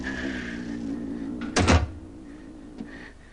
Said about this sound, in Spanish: Cierra la puerta.